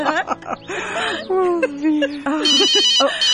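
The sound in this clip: A telephone rings in high, trilling electronic bursts, heard at the start and again near the end, while people talk and laugh.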